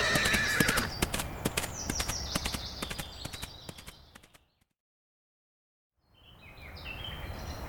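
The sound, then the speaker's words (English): A horse bucking wildly, with many quick hoof clatters and whinnies over a busy noisy background for about four seconds. Then a sudden silence, and faint noise returns near the end. “Get going, boy. That's it, Thunderbolt. Go wild. Buck out of control.”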